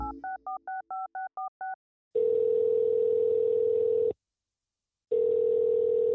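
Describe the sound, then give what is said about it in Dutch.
A telephone call is placed: a quick run of high keypad beeps, then a steady ringback tone that sounds twice, separated by a second of silence. “nou goed, we gaan bellen en kijken of hij thuis is. Even bellen met.”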